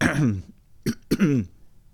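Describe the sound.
A person clearing their throat, troubled by a throat that won't settle: a few short rasping, voiced bursts separated by brief pauses, fairly faint and with no talk around them.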